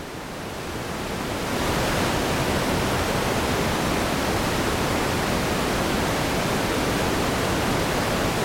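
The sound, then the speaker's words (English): Broad, hissing noise wash from a synthesizer's calm 'quantum ocean' ambient setting swells in over the first second or two, then holds steady and even like rushing surf. “just turn up the quantum ocean. It's automatically much calmer than the ether. The ether is a wonderful sound tool.”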